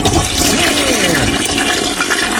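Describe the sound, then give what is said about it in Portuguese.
A toilet flush: loud rushing, gurgling water pouring continuously for a couple of seconds, with no voices. “Mesmo que você tenha aprontado tudo, dá aquela descarga”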